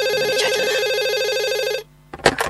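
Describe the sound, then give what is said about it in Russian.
A telephone ringing tone after a number is dialled: a buzzy, warbling ring holds for nearly two seconds, then breaks into silence, followed by a couple of sharp clicks as the line picks up. “наберите номер э, моего детства, а вы уже набираете.”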